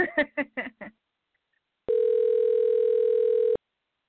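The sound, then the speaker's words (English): A telephone dial tone sounds as a line is dialed: one steady, unbroken tone lasting under two seconds, following a brief burst of voice and a short silence. “now we are dialing.”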